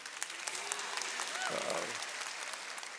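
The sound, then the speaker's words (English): Audience applause for a long-married wife, a steady, faint wash of many hands clapping that holds evenly throughout, with a brief vocal sound rising above it near the middle. “Now, she's the one you should be applauding.”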